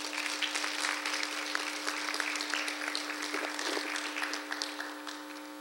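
An audience at a morning event applauds to welcome a guest. The steady clapping runs for several seconds over a constant electrical hum, then thins and fades toward the end.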